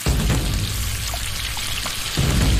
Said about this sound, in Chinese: 大火热油起底，加入干花椒和魔鬼辣椒，热油爆香。